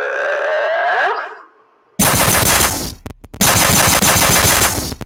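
Automatic gunfire tears out in loud, rapid bursts after a fading tonal sound, breaking off briefly before resuming at full intensity.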